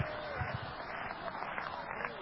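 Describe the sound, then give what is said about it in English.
Congregation clapping hands during a church service, a faint, loose patter of many claps with some voices mixed in. “Are you still out there? Clap your hands to me if you are.”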